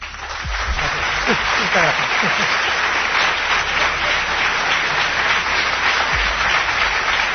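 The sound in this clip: Audience applause welcoming guests at a live event in Málaga, steady and dense clapping that lasts throughout, with a voice briefly heard near the start.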